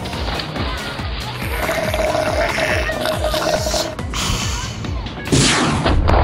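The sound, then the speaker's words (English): Rapid gunfire fills the whole stretch, a dense, loud clatter of many overlapping shots with no clear pauses, briefly joined midway by a steady tone. “Shots fired.”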